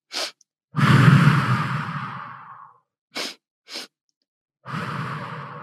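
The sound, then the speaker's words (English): Breathing exercise of two quick sniffing inhales through the nose and one long whooshing exhale through the mouth, the cycle heard more than once with no talking. “And so it's breathing in for 2 strokes through your nose and out 1 stroke through your mouth.”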